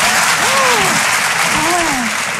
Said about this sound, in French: par applaudissement, qui a la ref ici?